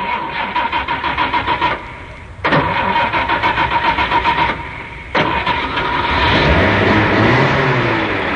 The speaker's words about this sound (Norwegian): Om dere kunne være så snill og vri om på den lille nøkkelen som sitter her, så prøver vi en liten start.